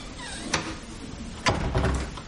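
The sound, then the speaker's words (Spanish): A door is closed in a room where a woman's ailing mother lies beside an IV drip, giving a few soft clunks and thuds over a low, steady background hiss. “Patience cierra la puerta.”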